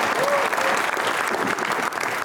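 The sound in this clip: Audience applause welcoming a young fraternity member onstage for a talk on leadership at a live event in Lexington, Virginia: a dense, sustained wash of clapping at a fairly even level, with small dips in loudness.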